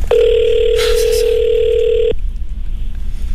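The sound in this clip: A telephone dial tone on a recorded call: a single steady, loud electronic tone holding for about two seconds, then cutting off into faint line hiss.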